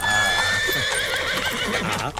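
A horse led out of a stable gives a long, loud whinny with a wavering, trembling pitch that fills the whole stretch, while hooves clop steadily underneath.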